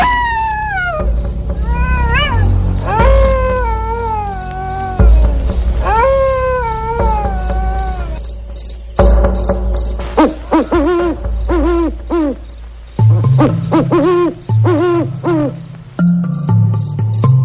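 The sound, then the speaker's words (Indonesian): Crickets chirp at night beside an irrigation embankment road, a steady high trill running throughout, with loud swooping, howl-like animal calls and hoots over it and no talk. “Kur ono suara jangkrik lan sepeda pancal.”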